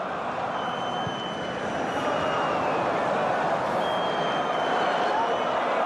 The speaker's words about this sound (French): Il y a une belle ambiance à la Beaujoire.